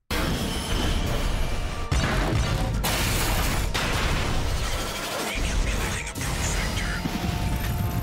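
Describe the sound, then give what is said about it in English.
A shield powers up in the Armored Core VI video game trailer, a dense, loud burst of mechanical clanking, crashing impacts and deep booms that keeps going without a pause. “This fucking thing, listen to the sound when the shield comes up.”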